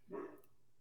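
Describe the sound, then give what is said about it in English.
A single short dog bark picked up on an open microphone. It is faint and brief, with quiet room noise around it and no talk. “is your dog being disruptive? Did I just hear that? You heard him. Picked him up on hot mic.”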